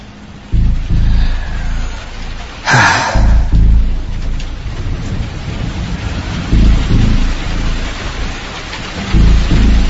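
Steady rainfall hisses throughout while thunder breaks in: one sharp crack near the start, then several deep, rolling rumbles rising and fading over the constant rain.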